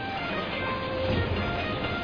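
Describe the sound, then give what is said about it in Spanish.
A train's steady low rumble carries on without a break. It is fairly quiet and even, with no distinct clanks or horn. “¡Apúrate, nos deja el tren!”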